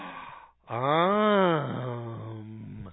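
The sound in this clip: A voice imitates a prissy little girl's gasp as one drawn-out voiced breath whose pitch arches up and then down before trailing into a steadier tail, loud and alone.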